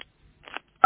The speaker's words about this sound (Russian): Нажмите, пожалуйста, сейчас цифру 5 на телефоне.